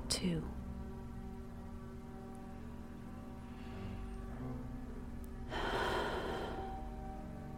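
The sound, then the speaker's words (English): A slow, deep breath taken during a guided relaxation exercise: a soft, airy rush of air swells briefly near the end of an otherwise quiet stretch. “Now let's take those breaths. Here's one.”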